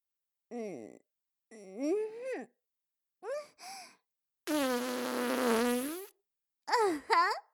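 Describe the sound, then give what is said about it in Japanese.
A long, loud, buzzy fart with a rough vibrating tone lasts over a second, set among short moaning vocal sounds before and after it. “ごめんね。おなら出ちゃった。”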